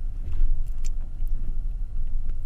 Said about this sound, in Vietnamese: Vừa lúc đó, một chiếc xe Honda từ ngoài đường cái chạy chậm chậm rẽ vào con hẻm.